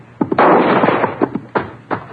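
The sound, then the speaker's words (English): Gunshots crack in a canyon. A few short, sharp reports surround one louder blast that rings on briefly. “What the Sam Hill? Now, who in the thunder are you shooting at?”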